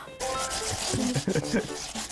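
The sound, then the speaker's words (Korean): Lotus root rubbed against a grater, a steady scraping rasp with voices talking over it. “와, 선재 스님이랑 강판 같은 강판에서 이렇게 연근을 갈 줄이야.”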